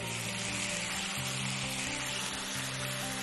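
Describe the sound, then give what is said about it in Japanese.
Loud, steady hissing sizzle of gyoza steam-frying in a pan after water is poured in to cover about a third of the dumplings, continuous and unchanging throughout. “餃子が3分の1ぐらい隠れるぐらい水を入れて 4、5 分蒸し焼きにしていきます。”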